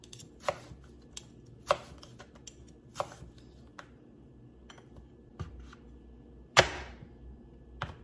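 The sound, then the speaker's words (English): A very sharp kitchen knife cutting through food, giving several crisp cutting knocks at an uneven pace with quiet gaps between them, and one louder chop near the end. “When you're cutting with a knife like this, you always kind of want to stay in right here when you're cutting, so it's easier on your wrist.”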